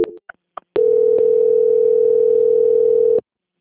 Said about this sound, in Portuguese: peço que aguarde a linha que vou transferir o seu contato para o controle de qualidade. Só um minuto. Transferência.